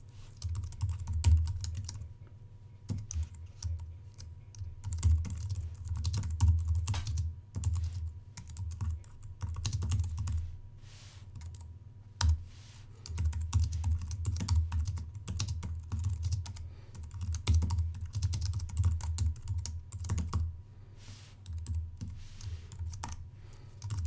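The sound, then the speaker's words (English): Typing on a computer keyboard while entering code for a Visual Basic console application: many rapid keystrokes in uneven bursts separated by short pauses, clear and alone throughout. “And now I'm going to type in the following code, so make sure you follow along.”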